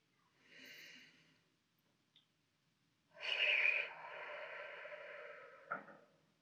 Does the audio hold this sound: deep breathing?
yes

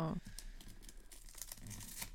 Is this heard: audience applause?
no

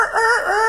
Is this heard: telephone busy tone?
no

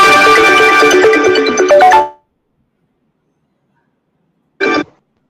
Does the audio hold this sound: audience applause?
no

